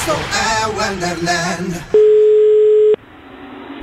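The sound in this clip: A telephone ringing out as a call is placed to someone at home: one steady ring tone lasting about a second, following a stretch of talk.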